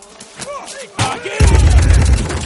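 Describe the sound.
Gunfire is aimed at a dodging raccoon in a 2017 sci-fi action film. A few sharp blasts burst out, then give way to a dense, loud roar of continuing action noise.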